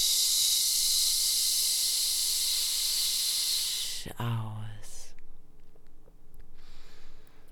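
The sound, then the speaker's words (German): A long, steady 'sch' hissing exhale during a guided breathing and relaxation exercise lasts about four seconds, then gives way to a brief voiced sound and quieter breath noise. “Atme noch ein letztes Mal durch die Nase ein und nochmal mit einem Sch”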